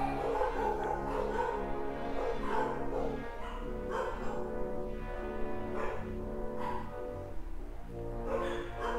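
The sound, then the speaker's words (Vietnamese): A dog barks repeatedly over a steady, loud background hum, with many barks running through the whole stretch and no pause. “Các bạn đợi tí rồi chó nó sủa xong á.”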